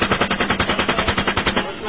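Automatic gunfire during a military engagement: a rapid, evenly spaced string of many loud, muffled shots that keeps a steady rhythm and tapers off at the end.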